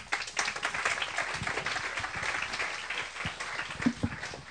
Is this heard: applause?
yes